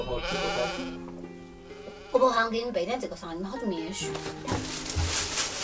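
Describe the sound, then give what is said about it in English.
Sheep bleating, a few wavering, nasal bleats, with a person talking over part of it. “Okay, so we see the little sheep”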